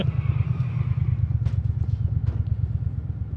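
Motorcycle engine in the video game GTA IV, a low, rapidly pulsing throb that keeps a steady rhythm, with a few faint clicks above it.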